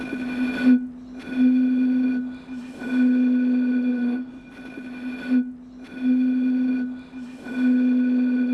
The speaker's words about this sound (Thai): อาจารย์จะสร้างเสียงจากขวดเปล่าอาจารย์สามารถสร้างเสียงจากขวดเปล่านี้ได้ซึ่งอาจารย์ก็แค่เป่าไปเรนบนๆเนาะ